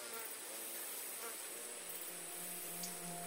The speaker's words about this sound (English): In the Alabama summers, you can hear the whisper of living things, the rustle of tiny creatures in the grass, the hum of katydids and crickets,